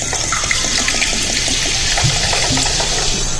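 Soda poured into a glass over a drink being mixed, a steady, loud fizzing rush with bright bubbling hiss that runs unbroken from start to finish, with no talking.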